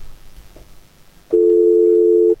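A telephone dial tone sounds as a call is picked up in a radio studio: a single steady, loud tone lasting about a second, rising abruptly out of faint background noise and cutting off cleanly.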